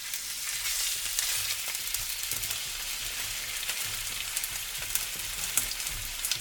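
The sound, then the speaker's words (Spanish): Chicken bones, separated from the meat, browning in a frying pan at full heat give off a dense, steady sizzle with scattered crackles and pops. It runs evenly throughout with no talk. “Estos son todos los huesos del pollo que nos ha dejado el pollero perfectamente separados de la carne, dorándose en la sartén al máximo de potencia.”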